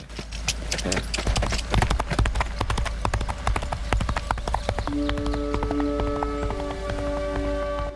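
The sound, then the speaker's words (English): Hooves of a zebra galloping off down a road: a rapid, dense clatter of clip-clop beats, with sustained musical tones entering partway through. “Nolan's eyes are reflected in his rearview mirror as he watches Channing gallop off down the road on Stripes.”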